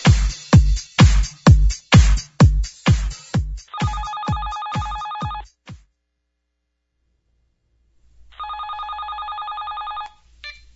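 A telephone rings in two loud electronic bursts of trilling tone, each under two seconds, with a pause between them. A rapid series of heavy rhythmic thumps comes before the first ring and overlaps it.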